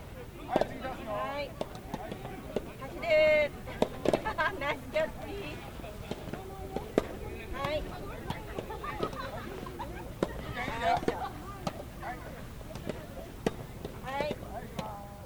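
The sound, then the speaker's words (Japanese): Tennis balls struck on outdoor tennis courts during a group practice for children through adults: many sharp, irregular pops and thuds of racket hits and bounces, with voices and calls mixed in throughout. “テニスボールを打つ音、心地よく聞こえてきますね。”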